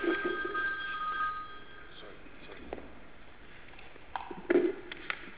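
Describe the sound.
A telephone rings faintly during a formal meeting: a short, steady electronic tone at the start, then low, murmuring background noise with a few faint knocks.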